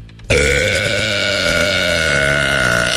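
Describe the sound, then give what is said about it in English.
A woman lets out one very loud, record-setting burp. It starts abruptly and rasps on for nearly three seconds as a harsh, steady, buzzing belch, heard alone. “But her whole life, she's just been a very loud burper. Yeah, let me hear that one more time.”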